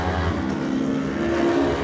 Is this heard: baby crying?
no